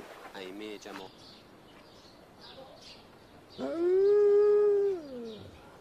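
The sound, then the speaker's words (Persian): A dog howls in one long, steady, fairly high tone that drops away at the end, after a stretch of voices talking. “یا خدا این چه وقت زوزه کشیدنه”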